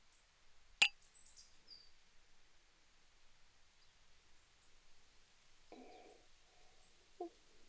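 Glasses clink in a toast with cassis-orange cocktails: one faint, sharp clink with a short high ringing tail, followed by soft rustling.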